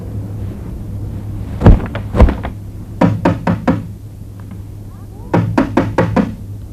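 Knocking on a door: sharp, loud raps come in separate bursts, a couple of single knocks followed by two quick runs of several hits each, with short pauses between them.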